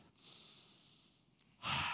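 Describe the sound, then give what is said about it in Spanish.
A deep breath during a Spanish-language religious talk: a long, soft airy inhale is followed after a short pause by a brief, louder breathy exhale, alone and fairly quiet. “Toma un momento y respira.”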